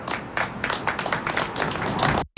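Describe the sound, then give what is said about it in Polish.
Applause at the unveiling of a mural, a short burst of dense, fast clapping that holds steady for about two seconds and then cuts off sharply. “Myślę, że należą się tutaj wielkie brawa.”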